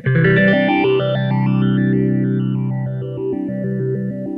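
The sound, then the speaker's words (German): A guitar runs through a multi-step phaser pedal set to step mode, holding sustained chords while the tone jumps in a stepped, staircase-like pattern. The effect is loud and steady throughout. “so it's a multi-step phaser. I'm not even sure how many steps it is. 16, 20, I mean, it's quite a few. Because when you crank it up, get it going faster, you can kind of hear the pattern a little better.”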